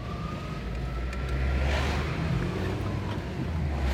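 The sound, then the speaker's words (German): A steady road drone from inside a car driving in the evening behind a convoy of police cars and ten buses. The low rumble of engine and tyres holds constant throughout, with no talking. “Hier ein bisschen Atmo von der Autofahrt.”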